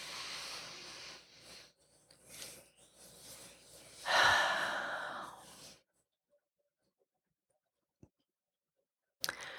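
Slow, deep breaths are drawn in and let out, ending in one long, loud exhale. Then near silence follows, broken by a couple of faint clicks.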